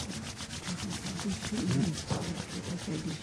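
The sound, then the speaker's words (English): Palms rubbed briskly together make a soft, rapid swishing friction of many quick, even strokes with no pause. “Rub your palms.”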